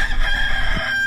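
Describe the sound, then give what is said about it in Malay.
A rooster crows briefly, a short, tense call over a steady background drone. “Ayam jantan berkokok.”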